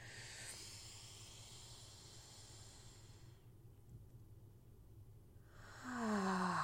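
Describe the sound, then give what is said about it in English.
A slow inhale through the nose during a guided breathing exercise, heard as a steady, soft hiss lasting about three seconds, followed by a quiet pause before a voice begins. “we're going to breathe in through our nose and hold for a few seconds. In.”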